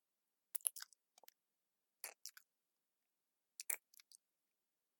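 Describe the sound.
Chewing of soft food comes in a few short clusters of faint, wet smacks and clicks, separated by near silence.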